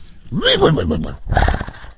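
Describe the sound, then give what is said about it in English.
A man imitates a horse's whinny with his voice, a squealing cry that climbs in pitch, followed after a short pause by a rapid, fluttering, sputtering nicker. “I can talk to horses, and it's so good, my horse impression, they actually respond, and the horse will come over.”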